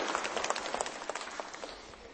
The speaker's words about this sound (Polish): Oklaski dla Klaudii, bardzo dobra obserwacja.